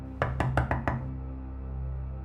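Five quick, firm knocks on a door in an even rhythm, followed by a quiet low hum.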